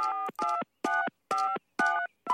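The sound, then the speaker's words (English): Telephone keypad tones as someone dials a number: six short, steady beeps at an even pace, separated by brief silences. “But he decides he's going to try and dial the plant and tell them about the problem. I got to call the plant and warn them.”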